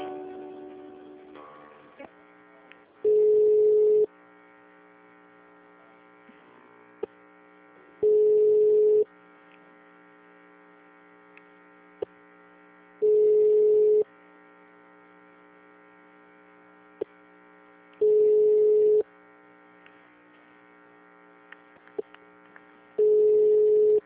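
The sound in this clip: Telephone line tones during a call transfer: five evenly spaced tone bursts, about five seconds apart, sounding over a steady humming line.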